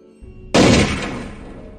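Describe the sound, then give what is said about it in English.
A single loud gunshot fired by a sheriff outdoors in the snow: one sudden, heavy blast that booms and then slowly fades out over the next second. “the sheriff shot Kimber in the chest, where she stood, and she fell over into the snow without making a sound.”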